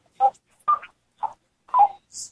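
Five short telephone dialing tones from an accidental call, faint and evenly spaced with clear gaps between them.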